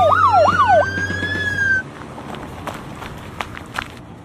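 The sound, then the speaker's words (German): Sirens of an arriving fire engine and ambulance: a loud, rapidly cycling wail alongside a steadier high tone for about two seconds, then cutting off, leaving faint scattered taps. “Die Feuerwehr kommt. Und der Krankenwagen.”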